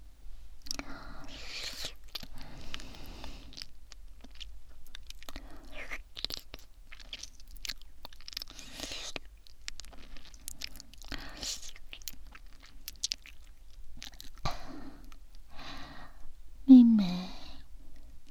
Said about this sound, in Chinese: 怎么吃都吃不够呢